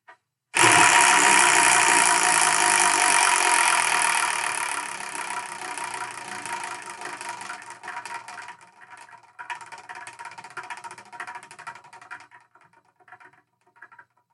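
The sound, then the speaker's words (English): A prize wheel spins with a loud, dense rattling whir that gradually fades, its clicks thinning and spreading apart as it slows, then sparse ticks before it comes to rest. “So let's spin that one, that only, the Wheel of Manga, and see what we're going to review in the next episode.”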